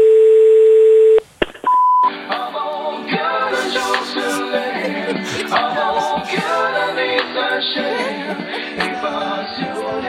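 A telephone dial tone sounds for about a second on an outgoing call to an emergency line, followed by a short dialing beep, after which music plays continuously on the line.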